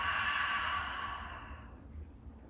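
A slow exhale during a therapeutic Lu Jong yoga breathing practice: a soft, airy breath that starts steady and fades gradually over about two seconds.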